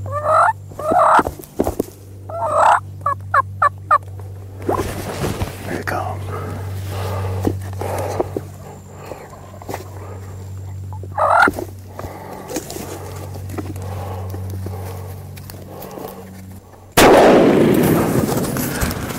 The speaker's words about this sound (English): hunters are trying to get the bird to run right at them using a big decoy and a call. In the video, the hunter gets the bird to come in as close as 2 feet, whereupon he shoots him, again with the pistol.